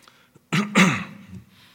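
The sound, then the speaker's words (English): A cough during a church sermon: two harsh bursts in quick succession, the second louder and trailing off into a rough breathy tail, with near silence before it. “Pardon if I do a little bit of coughing.”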